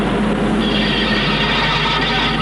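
A locomotive's sound effect: a loud, steady rumbling roar of dense noise that holds unbroken from start to finish, with no voices over it.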